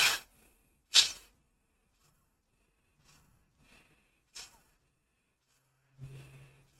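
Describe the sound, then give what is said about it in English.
Intense breathwork breathing: a few sharp, forceful breaths, the first two loudest, then softer breaths spaced out with quiet gaps between them. “I was already used to intense breath work. And this kind of sounds like this.”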